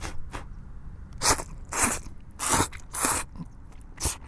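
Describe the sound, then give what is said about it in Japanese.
Chewing and biting on yakisoba fried noodles, a slightly soggy batch cooked at a barbecue. A few crisp, crunchy bite sounds come in separate bursts over a low, constant background, with no talking. “焼きそばいただいてみましょう”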